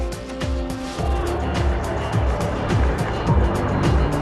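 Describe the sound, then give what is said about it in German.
A BMW 3 Series Sportline car's engine drives with a loud, continuous drone, its harmonic tones shifting up and down as it runs. “Wir freuen uns auf noch 2 neue BMW 3er, meine Damen und Herren. Die Sportline ist startbereit.”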